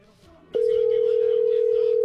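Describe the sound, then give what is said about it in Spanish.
A telephone ringback tone heard while calling the boss: one steady, loud, single-pitched ring of about a second and a half that starts and stops abruptly over a quiet background. “Le estamos marcando al jefe a ver si contesta.”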